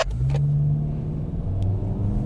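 A car accelerates at full throttle during a driving exercise around cones, giving a low, steady engine rumble with a throaty tonal drone throughout, fairly faint and without voices.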